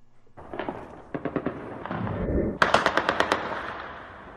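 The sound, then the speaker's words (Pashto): Light and heavy weapons fire in celebration at night in Kabul after a cricket win, in sharp, rapid bursts of many shots. A scattered opening gives way to two denser volleys, the last one loud and crackling. “د سپکو او درنو وسلو دا ډزې په 40 ورځو او 50 ورځو لوبو کې د زیمبابوې په وړاندې د افغانستان د کرکټ ملي ټیم د بریا له امله د خوشحالۍ په دود تیره شپه په کابل کې وشوې.”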